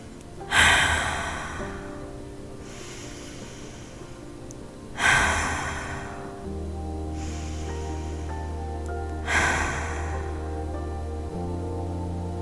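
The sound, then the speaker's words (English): Deep cleansing breaths for a guided visualization meditation: three slow cycles, each a loud airy inhale followed by a softer, fainter exhale, over a quiet sustained musical drone. “We're going to start this practice with some deep cleansing breaths together.”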